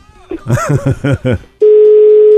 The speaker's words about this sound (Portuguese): O número que você ligou está ocupado.